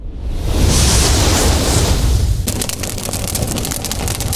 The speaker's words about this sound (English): Look at this, I'm on fire. Man, if I wasn't, though, I'd be in Arkansas. But I can't because my hair is literally on fire.